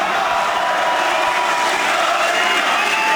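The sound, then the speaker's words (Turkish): A large crowd at an AK Party political rally in a packed hall cheers and chants, forming a loud, unbroken roar of voices with shouting. “Konuşması sık sık tezahüratlarla kesildi.”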